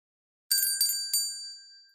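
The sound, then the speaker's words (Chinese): Three quick, bright dings of a small bell being rung, each one striking sharply, with the high metallic ring lingering and slowly fading after the last. “听到了吗？这是我要铃铛的声音。”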